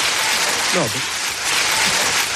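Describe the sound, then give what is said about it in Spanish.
Audience applause at a speech, loud and continuous, with a brief voice heard over the dense clapping. “No, de verdad, no hace falta. No me aplaudáis, hombre.”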